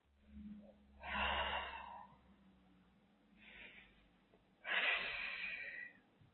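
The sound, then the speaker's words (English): Deep breaths taken during a guided healing exercise: two slow, airy breaths with a fainter one between them, soft and quiet. “We'll take a couple of deep breaths.”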